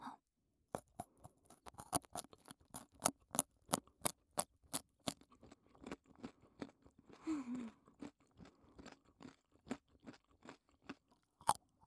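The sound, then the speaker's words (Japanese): A rabbit chews a raw carrot, producing many rapid, dry crunches in a quick steady rhythm, with a brief softer scraping sound in the middle. The crunches are faint and no voices are heard. “そんで次は人参食べてみます。うさぎ。”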